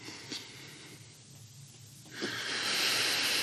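A deep breath drawn in through the nose: after a near-silent pause, a soft, airy hiss swells up and holds steadily to the end, quiet overall.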